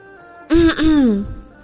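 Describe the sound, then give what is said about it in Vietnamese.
A single voiced cough with a throat-clearing quality, heard alone: a sharp burst followed by a longer, falling second push that fades out. “Triển Chiêu lại ho, nói.”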